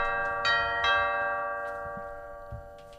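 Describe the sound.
A doorbell rings faintly as a sustained multi-tone chime that hangs steadily for the whole clip, with a few soft clicks and bumps underneath.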